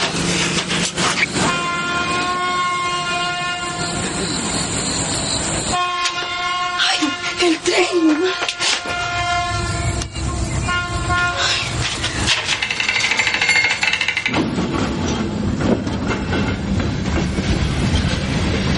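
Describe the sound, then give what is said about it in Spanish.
A train arrives and passes a level crossing. Its horn blares in sustained tones over a continuous loud rumble and rail clatter, and the horn tone changes partway through. “cuando de pronto llega el tren”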